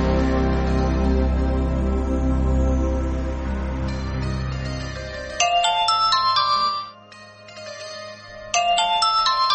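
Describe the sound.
A telephone rings for a call to a studio. An electronic ringtone of quick, bright chiming notes comes in two bursts with a short gap, after a sustained low droning tone.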